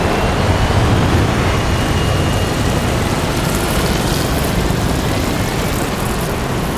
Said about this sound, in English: Three aircraft take off, kicking up black dust.